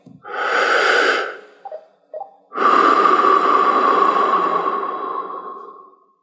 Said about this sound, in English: Now keep your hands relaxed on your knees and slowly inhale and exhale like this.